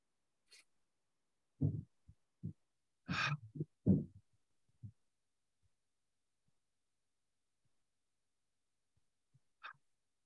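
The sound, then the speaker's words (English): Deep breathing during a guided prayer exercise, in through the nose and out through the mouth: several soft, airy breaths and exhales with hissing edges, separated by quiet pauses, and a faint final breath near the end. “Everyone breathe in your nose and out your mouth three times.”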